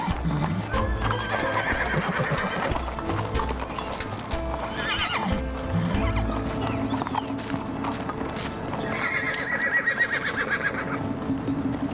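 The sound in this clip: A horse neighs in loud, high whinnies over steady clip-clopping hooves, with a dense, busy backdrop that continues throughout.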